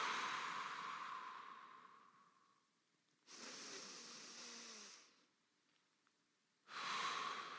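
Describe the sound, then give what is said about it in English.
Long, slow, deep breaths drawn in through the nose and let out through the mouth come as a few long, airy, hissing rushes, each separated by a quiet pause. “just begin to take a long, slow, deep breath in through your nose and then out through your mouth.”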